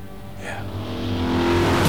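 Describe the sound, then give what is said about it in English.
A sports car engine revs and roars outside a glass-fronted warehouse. The low engine tone holds steady while the sound grows louder toward the end. “A sports car races through the air outside a glass-fronted warehouse”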